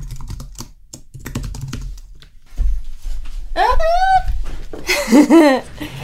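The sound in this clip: Rapid keyboard typing as bank and credit card details are entered to set up payment for selling items online, many quick clicks running under a person talking.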